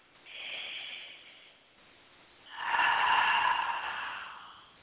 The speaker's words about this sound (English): So now, take another deep breath.